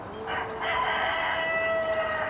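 A rooster crows in one long, loud, drawn-out call that fills the whole moment, with a strained, harmonic tone and no other sounds around it.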